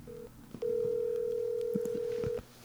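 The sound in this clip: A phone dials out on speakerphone: a short steady tone, a brief pause, then one long, even tone with a few faint clicks, all quiet and with no talking.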